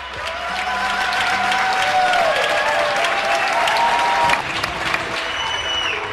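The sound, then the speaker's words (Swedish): Balcony applause in Spain during the coronavirus lockdown, with residents clapping from their balconies at around ten at night: steady, dense clapping from many people with scattered cheers, continuous throughout. “Det du hör är ljudet av tacksamhet. Några dagar efter att invånarna i Spanien satt i husarrest av sin regering för att motverka spridningen av corona gick man ut på sina balkonger vid 10-tiden på kvällen och började applådera.”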